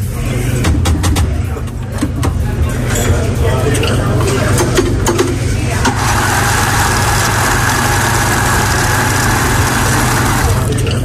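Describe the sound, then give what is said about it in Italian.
A coffee grinder grinds coffee with a continuous rough, whirring noise, loud and steady, its tone shifting to a harsher, more pronounced grind partway through and holding to the end. “io potrei dire che secondo me è il macinino del caffè. Il macinino del caffè? La risposta è esatta, ragazzi! Bravo, bravo Simone! Che bella quella macinata che si sente”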